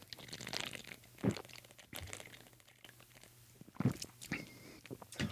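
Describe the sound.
Someone chews and bites into food, with a few sharp, loud crunches among softer, wet mastication sounds and a low steady hum beneath, with no talk.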